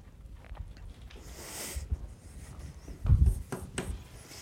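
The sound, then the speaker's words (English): Someone writes out mathematical equations by hand: soft scratching strokes and small taps come in uneven bursts, quiet and alone. “I write this out again and abbreviate cosine with a C and sine with an S.”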